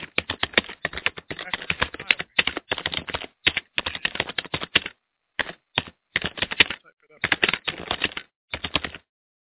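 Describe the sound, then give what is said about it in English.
Rapid keystrokes clatter as someone types out a weather report, coming in quick bursts broken by short pauses. “Well, you know, I want to type the weather report. Let me type the weather report for”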